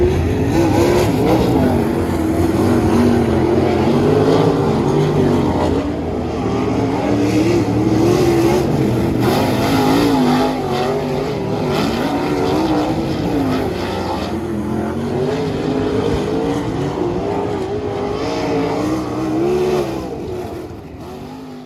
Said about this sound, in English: I also happen to have some super secret spy footage of Shepherd making laps, which I will push play on right now.